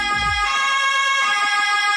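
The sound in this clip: Police siren of a Swiss cantonal police vehicle in Valais, a loud, sustained wailing tone with strong harmonics that holds steady for the whole two seconds.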